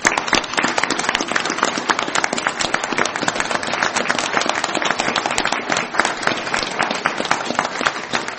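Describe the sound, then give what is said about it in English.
A round of applause at a meeting: many hands clap in a dense, even patter that stays loud and steady for several seconds, with no talking over it. “Round of applause.”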